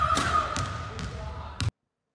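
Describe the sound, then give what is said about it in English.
Balls bounce during a trick shot into a bucket, making a few sharp thuds over a steady background hiss. The sound cuts off abruptly after the last, loudest bounce. “The sound of bouncing balls.”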